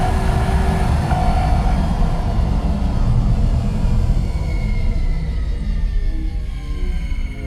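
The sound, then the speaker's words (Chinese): A spaceship that has run out of energy makes an automatic landing with a loud, continuous low rumble and roar. The sound holds steady, then eases slightly toward the end, with no voices. “坏了，能量要用完了！小溪，快去问问 NONO，这里是什么星球？ 能源用尽，正在自动降落。”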